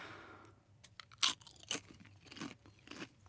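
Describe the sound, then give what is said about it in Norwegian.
A person chewing and eating strong, spicy food: a few loud, sharp crunches between softer wet chewing sounds, in an irregular rhythm, with no talking. “Så da bare jafser du på? Ja, spis.”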